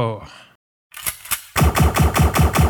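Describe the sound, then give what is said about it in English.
Gunshots fire at a cactus: a voice speaks briefly and falls silent, then two sharp single shots crack, followed by a rapid, evenly spaced burst of many loud shots. “Let's see, shooting a cactus.”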